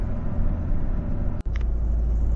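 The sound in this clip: A family car drives up the road toward Valdrome with a steady, loud low rumble of engine and road noise throughout, broken briefly by a sharp click and a momentary dropout near the middle.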